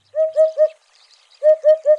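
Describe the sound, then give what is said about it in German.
A hoopoe calls in two bursts of three low, hollow, evenly spaced hoots, with a short gap of faint background sound between the bursts. “Der Wiedehupf. Orangebrauner Rücken, schwarz-weiß gestreifte Schwingen und Schwanz, eine kecke Federkrone auf dem Kopf.”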